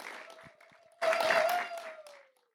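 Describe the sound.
Applause from a church audience welcoming a speaker to the front: a sudden burst of clapping that holds for about a second and then tapers off, with a steady held tone running underneath throughout.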